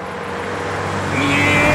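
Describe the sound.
Engine of a 1975–76 company car in good condition with little rust, running steadily on a test drive. A continuous low drone that grows slightly louder toward the end.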